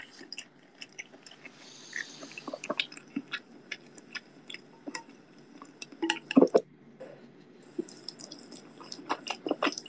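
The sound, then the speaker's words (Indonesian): ASMR mukbang eating sounds: quiet, close mouth clicks, wet smacks and crunchy bites come as many brief, sharp ticks in an uneven rhythm over a soft background hiss. “mukbang lagi, mukbang nih ASMR mukbang nih,”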